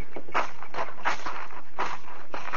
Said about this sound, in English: I'll walk you to the gate, Marshal.